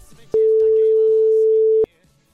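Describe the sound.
A telephone line tone sounds as a call is placed: one steady, unbroken mid-pitched tone lasting about a second and a half, loud against faint background sound before and after it.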